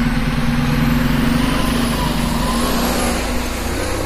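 A bus engine drones loudly and steadily throughout, a heavy low rumble mixed with broad road noise, with no talk over it.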